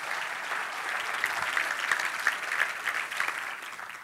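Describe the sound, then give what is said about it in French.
A church audience applauds, with steady, dense clapping that carries on evenly for about four seconds without a break. “Est-ce qu'on peut acclamer le Seigneur comme il faut?”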